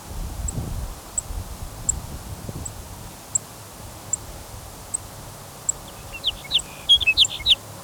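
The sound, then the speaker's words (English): Soft, high chip notes of a sage sparrow, probably a female, repeated singly at a steady pace of roughly one per second over a low background hiss, with a brief cluster of quicker chirps near the end. “Another sage sparrow chipping, probably a female.”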